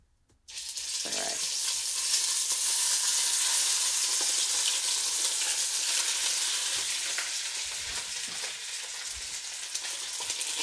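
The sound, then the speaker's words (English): Olive oil sizzles in a Dutch oven heated on high heat for searing: a dense, crackling hiss that starts abruptly and holds steady for about ten seconds, easing slightly toward the end. “in my Dutch oven thing that's been heating up on maybe too high of heat because I'm using olive oil”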